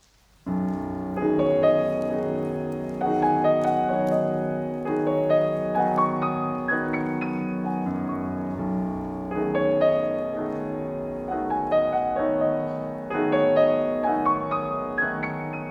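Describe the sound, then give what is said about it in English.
Piano melody played on the black keys in a pentatonic scale, evoking the Javanese slendro scale of gamelan music; clear, moderately loud single-note phrases ring over sustained lower notes, with no talking. “At bar three, we have the first melody, which sounds like this.”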